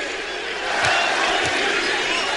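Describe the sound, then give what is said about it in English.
An arena crowd at a basketball game chants MVP during free throws, a dense roar of voices that swells after the first half-second and stays loud, with two low thuds beneath. “Crowd chanting MVP.”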